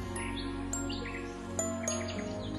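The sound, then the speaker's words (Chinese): A blue jay chattering on a branch gives several short, bright chirps scattered over a steady tonal background, fairly faint throughout. “一只蓝松鸦飞到枝头上，叽叽喳喳吵个不停。”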